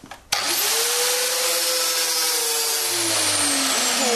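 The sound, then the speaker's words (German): An angle grinder cuts a copper tube clamped in a vise. It starts abruptly into a loud, steady, high-pitched whine and hiss whose tone sinks slightly as the blade bites, with no voices. “nimmt eine Kupferröhre, spannt sie in einen Schraubstock und startet den Winkelschleifer.”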